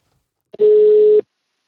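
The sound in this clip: A single telephone ringback tone on an outgoing speed-dial call: one steady, even mid-pitched tone of about half a second, preceded by a short click, then silence.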